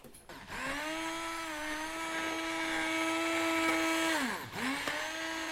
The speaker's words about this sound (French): Je suis en train de mixer la courgette. Le velouté? Le velouté de courgette.